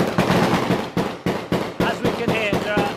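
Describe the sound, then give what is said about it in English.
Gunfire from many guns on the streets during a rebel uprising, with sharp cracks overlapping into a continuous loud barrage and voices faintly audible toward the end. “As we can hear, there are a lot of guns, aren't there? Yeah, there are a lot of guns.”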